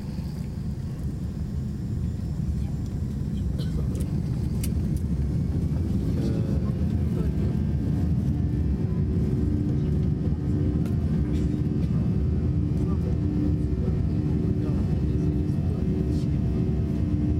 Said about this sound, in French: Attention, décollage imminent. C'est parti.